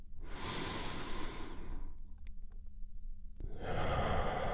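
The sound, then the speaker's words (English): One deep breath: a long, airy inhale, a brief pause, then a steady, loud exhale that carries on to the end. “let's take one deep healing breath. Ready?”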